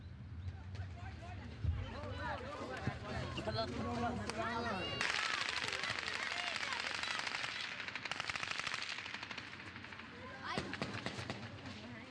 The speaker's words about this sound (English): And those last sounds, the sounds of the shooting, from where? Those are actually from Khan Yunis. The refugee camp, yeah.